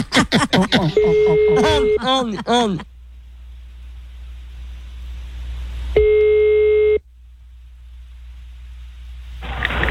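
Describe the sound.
Telephone ringback tone before a call is answered: one steady electronic tone about a second long, coming after a short stretch of voice and several seconds of quiet.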